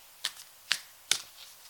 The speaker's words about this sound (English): So I'm going to give the cards a bit of a shuffle, blow off my energy and